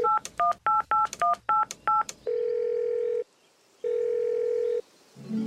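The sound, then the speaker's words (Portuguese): Telephone keypad dialing: a quick run of about nine beeping tones, then two long, steady ringing tones on the line with a pause between them. “Vou ligar pro Rafa”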